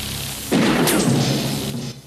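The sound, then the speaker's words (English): Gunfire in a Rambo film as a panicked sergeant fires a pistol: a loud, sharp burst that cuts in abruptly and rings out in a long, rough decay, with another crack near the end. “Tay panics and pulls a pistol.”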